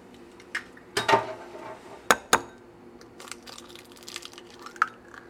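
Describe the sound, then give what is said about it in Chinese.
Scattered clinks and taps of utensils against a bowl as eggs are beaten, a few sharp metallic knocks standing out over faint, low background noise. “好，那就准备一个碗，哎呦，那我们打蛋”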